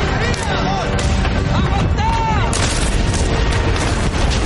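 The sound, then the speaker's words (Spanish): Sniper rifles fire from the trenches in a war drama set on a critical front. Sharp bangs and deeper booms break through a busy, loud battle backdrop, with several shots coming in quick succession later on. “En las trincheras, varios francotiradores disparan contra el bando rival.”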